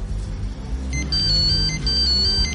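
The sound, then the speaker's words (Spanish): Mobile phone ringing with a high, warbling electronic ringtone that starts partway in and repeats in short trilling bursts over a low background rumble. “De pronto su móvil empieza a sonar.”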